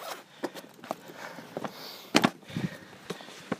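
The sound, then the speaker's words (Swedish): Careful footsteps on a slippery jetty: faint, uneven thuds and scuffs spaced irregularly, with a slightly firmer pair of steps near the middle, over a quiet background. “Det är lite halt så jag går lite försiktigt här. Och nu är jag på bryggan.”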